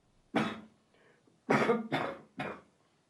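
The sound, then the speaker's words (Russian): Harsh coughing from one person: a single cough, then a faint breathy sound, then a quick run of three more coughs, each a short, rough burst separated by silence. “Покашляй.”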